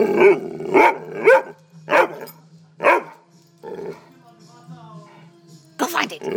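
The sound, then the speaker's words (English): Loud, sharp barking from a dog urged to search, in uneven bursts: a quick run of barks, a gap, then one last bark near the end, over a faint steady low hum. “Go find it! Go find it! You're a vicious dog.”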